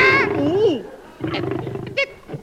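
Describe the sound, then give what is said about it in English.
A lion roars, a rough, tonal call that swells and bends in pitch, followed by people talking excitedly. “Lion! It's a lion! Oh, you silly man, you. Ellington, do you think it's a lion? Yes!”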